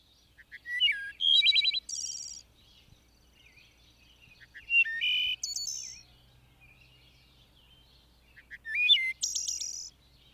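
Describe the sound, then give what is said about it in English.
Thrushes sing in the woods, three separate bursts of high, clear, fluting phrases broken by quiet pauses. “the field sparrows sings his breezy vesper hymn. And the woods are unfolding to the music of the thrushes.”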